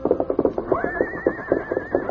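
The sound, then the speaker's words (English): A paint horse, agitated and led to a corral, lets out a long, loud, high whinny that starts about a third of the way in and holds its pitch, over steady rhythmic thuds like hooves. “Scout continued to whinny, rear, and paw the ground as Randy led him to the corral. The behavior of the paint horse was something new to the rancher.”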